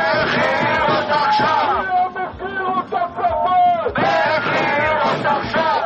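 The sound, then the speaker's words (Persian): Crowd of thousands of protesters at a demonstration in Tel Aviv demanding the immediate release of Israeli hostages held by Hamas, after failed ceasefire talks; loud, continuous massed shouting and chanting voices fill the whole clip. “همزمان با شکست مذاکرات آتش‌بس روز شنبه در تل‌آویو، هزاران اسرائیلی با برپایی تظاهراتی گسترده خواستار آزادی فوری گروگان‌های اسرائیلی از دست حماس شدند.”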